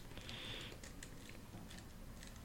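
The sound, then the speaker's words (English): Password being typed on a computer keyboard: many faint, quick keystroke clicks in an uneven rhythm, heard alone. “Password. We're going to type in the password.”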